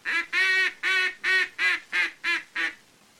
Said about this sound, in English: That, of course, is just the elementary procedure in making the key tone of the various calls which make up the wild duck language, and sounds like this when applied to the duck call.